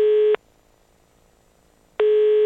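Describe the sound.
A telephone line tone heard while an international call is being placed: a steady mid-pitched tone sounds briefly, cuts out for about a second and a half, then returns.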